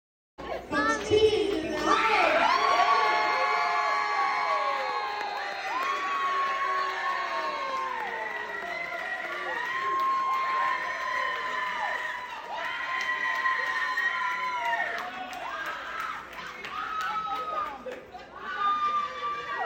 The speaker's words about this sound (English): You want to know what that sound was? Okay, I'll tell you. That sound is the sound of folks celebrating